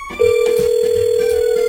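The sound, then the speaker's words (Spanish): Ringback tone of an outgoing telephone call: a single steady, mid-pitched electronic tone starts abruptly and holds unbroken over faint background noise. “Que le estamos llamando, espérenme.”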